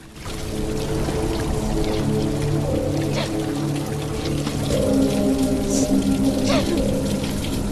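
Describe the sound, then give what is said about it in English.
Water pouring down rocks in a cavern makes a constant, loud rushing splash that holds an even level throughout, with bright spattering flecks over a low, full roar. “Water pours down the rocks beside her.”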